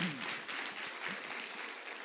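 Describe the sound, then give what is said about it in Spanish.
A church audience applauds during a worship service. The dense, even clapping is fairly faint and continues without a break through the whole stretch. “Aplauda, aplauda al Rey de Reyes porque es así.”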